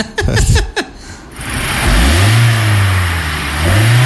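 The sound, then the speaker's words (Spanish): A 2017 Kia Forte engine revs; the car is said to have trouble shifting through its gears. After a short burst of other sound, a low engine drone swells and holds, dips slightly, then climbs again near the end. “ya me mandaron el video del motor, a ver si logramos interpretar el ruido”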